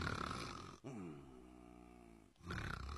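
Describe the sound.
A voice imitates the snoring of a worn-out man asleep, drawing out one long, rasping, low-pitched snore with a rough, guttural texture. Steady background noise can be heard before and after the snore.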